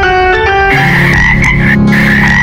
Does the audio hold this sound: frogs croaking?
yes